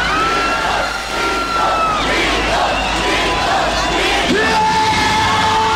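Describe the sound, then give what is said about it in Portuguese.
A crowd yells and cheers loudly, a dense, continuous mass of shouting voices with higher whoops and bellows rising out of it throughout. “Quero ver a moçada gritando, então, gritos, gritos, gritos, gritos, gritos, gritos, gritos, vamos pra cima!”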